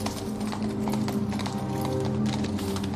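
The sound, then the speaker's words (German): Hooves of a horse-drawn carriage clip-clop in a steady, continuous rhythm of many sharp hoof strikes over a dense, loud rumble throughout. “Eine Kutsche.”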